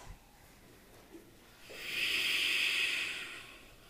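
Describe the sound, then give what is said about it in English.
Ujjayi breathing during a yoga class: after a quiet start, one long, breathy hiss swells, holds for over a second and then fades away. “Commit to Ujjayi breath.”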